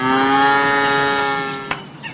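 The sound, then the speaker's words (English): A cow lets out one long, loud, deep moo on a farm by the barn, holding steady for well over a second before it trails off. A sharp click follows. “Let's get those cows out of the barn. Wake up and smell the clover,”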